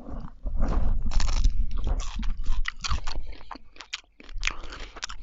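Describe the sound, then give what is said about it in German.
Someone bites into raw broccoli, producing loud, dry crunching followed by many rapid crunchy chewing sounds, with a short pause near the end. “Wusstest du, dass du so Brokkoli einfach so essen kannst? Mega lecker. Ähm, also ohne ihn zu kochen, meine ich. Okay, ich nehme nochmal einen Biss, aber diesmal von einer anderen Stelle.”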